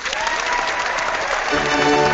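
An applause sound effect plays: dense, continuous clapping from a crowd at a steady, fairly loud level throughout, with no voices over it.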